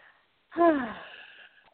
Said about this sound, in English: Ah, good breath. That's the kind that releases.